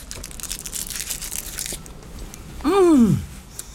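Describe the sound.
Chocolate is unwrapped and bitten, with crinkly wrapper rustling at first, then a brief louder bite accompanied by a short falling tonal sound.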